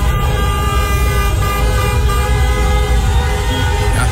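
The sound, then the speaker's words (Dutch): Car horns honking in a Rotterdam street during celebrations after a Cape Verde football goal, with several overlapping sustained toots over loud, continuous traffic noise. “Getoeterd daar op straat bij Kaapverdië”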